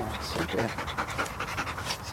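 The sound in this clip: A female Belgian Malinois search and rescue dog pants in rapid, steady breaths throughout, during a training session, with people talking alongside.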